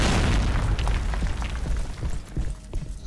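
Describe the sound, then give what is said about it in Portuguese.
Explosion of a bomb trap going off: a loud, sustained low rumble with several sharper bursts inside it, dying away slightly toward the end. “Já percebemos que isso aqui é uma armadilha. Primeiro explode.”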